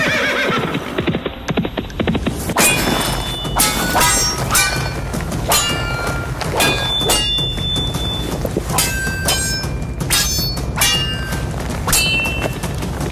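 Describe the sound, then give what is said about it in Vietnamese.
Broadsword and halberd clashing in mounted combat, with many sharp metallic clangs and thuds in irregular succession, alongside horses whinnying and hooves clopping. “đao và kích đập nhau chan chát hơn chục hiệp”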